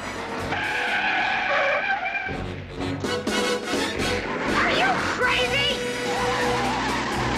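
A car speeds off out of a car park with squealing tyres and a rising engine roar, the screech sliding up and down in pitch over several seconds and staying loud to the end.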